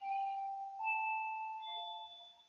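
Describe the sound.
A bell ringing on Freedom Day, 27 April 2021: clear, sustained chime tones, with a few overlapping notes that shift in pitch and ring out evenly at modest volume.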